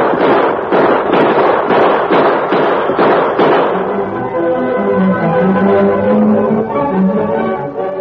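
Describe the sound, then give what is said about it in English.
Gunshots ring out in a radio drama shootout with a sheriff and a masked man: a rapid volley of many sharp, loud cracks for about four seconds, followed by steadier sustained tones. “Gun him down, Tar. Come on, fellow. You won't get me. Shoot him, Tar.”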